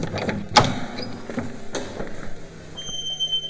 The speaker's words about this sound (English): the brothers found themselves at a door, which they figured would lead to their final boss, if you will. Well, let's open it.